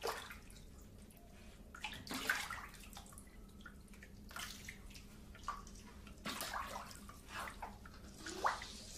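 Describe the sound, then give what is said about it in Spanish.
Water dripping ceaselessly from a tap onto a flooded floor: faint, irregular plinks and small splashes over a soft, continuous watery wash. “Mientras el grifo enfocado en primer plano gotea incesantemente, el hombre se sienta.”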